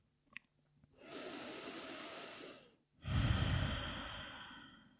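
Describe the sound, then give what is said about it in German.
Deep breathing during a meditation: one long, soft, airy inhale is followed by a brief pause and then a fuller, louder exhale, with faint clicks at the start. “Nimm hier ein paar tiefere Atemzüge in den Herzraum ein und aus”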